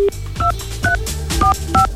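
Telephone keypad dialing tones as a code is entered: four short two-tone beeps in an uneven rhythm, after a brief single lower tone at the start, over a low steady background hum.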